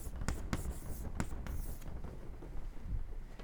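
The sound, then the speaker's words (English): Writing on a board: a few short, scratchy marker strokes come first, then softer continuous scraping. No one speaks. “So let me write these on the board.”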